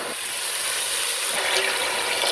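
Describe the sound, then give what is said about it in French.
Water is poured into a cooking pot of Cilaos lentils with other ingredients, a steady hissing rush of liquid that runs unbroken and evenly loud throughout. “Je mets de l'eau dedans.”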